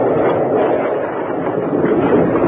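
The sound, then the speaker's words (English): A landslide rumbles as it closes a mine tunnel, a loud, steady roar of dense low noise that keeps going without a break. “Bill, it's a landslide. It's closing the tunnel. We'll be buried alive.”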